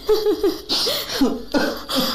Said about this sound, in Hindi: ये क्या, मुन्ना रोने लगा, इसे भी अभी उठना था।